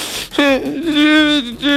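A boy crying: long, tonal wailing sobs with a strong, steady pitch, two sustained loud cries with a brief catch between them.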